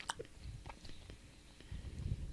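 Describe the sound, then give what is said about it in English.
Faint chewing and biting of food close to the microphone during a mukbang: a few sharp crunchy bites and clicks at first, then softer, steadier wet mouth sounds toward the end. “She's having a mukbang. She's destroying the food. It's picking up all the noises.”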